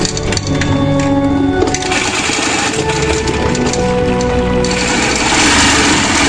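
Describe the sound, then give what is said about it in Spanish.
A sewing machine stitching fabric gives a loud, continuous mechanical whir with dense rattling and clatter, running steadily without a break from start to finish. “Cosiendo, cosiendo. ¿Cuántas costureras hay aquí? ¿Cuántas petaqueras?”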